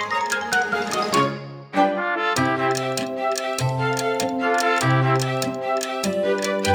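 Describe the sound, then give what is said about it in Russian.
A clock's tick-tock pattern sets the pulse of a children's song, with many steady, evenly spaced bright ticks over a fairly loud tuneful backing that carries on throughout. “Часики наши спешат, тик-так, тик-так, тик-так, тик-так.”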